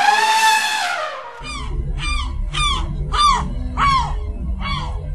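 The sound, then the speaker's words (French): Gulls, seabirds of the family Laridae, give a series of loud, harsh calls, each a sharp cry sliding downward in pitch, repeated at a fairly even rhythm. “Les mouettes sont des oiseaux marins qui font partie de la famille des Laridés.”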